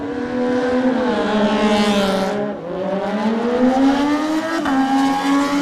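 A Triumph racing motorcycle passes at high revs during a road race. Its loud engine note climbs steadily, dips briefly midway, then climbs again without a break.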